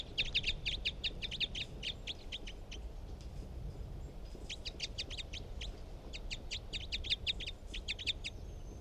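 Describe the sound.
Bird calls: many short, sharp, high chirps repeated in rapid series, with one burst, a brief pause, then a longer run, over a constant low background rumble.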